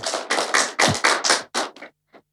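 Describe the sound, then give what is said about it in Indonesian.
Group hand clapping at a school performance event: a string of loud, evenly paced bursts of claps that thin out toward the end, followed by one faint final clap after a short pause. “Tepuk tangan teman-teman.”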